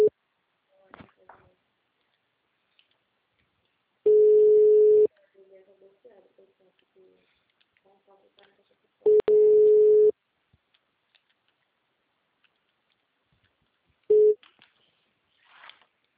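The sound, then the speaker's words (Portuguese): Telephone ringback tone while calling: a steady low-pitched beep sounds for about a second, then a long pause, repeats, and a third tone is cut short; faint clicks and murmurs fill the gaps between tones. “É o meu que tá chamando. Vamos ver se ela atende.”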